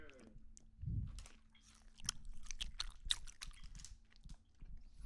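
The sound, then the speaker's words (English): Gummy candy chewed ASMR style, close and wet, with many soft smacks, sticky clicks and squelches in an uneven rhythm, plus a low thump early on. “Can you do, like, an ASMR with the gum? It's kind of gross.”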